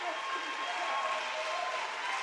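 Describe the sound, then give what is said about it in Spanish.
Congregation applause at a church service: a continuous, even wash of many hands clapping that stays level and unbroken for its whole short length. “Denle un aplauso al Señor Jesucristo.”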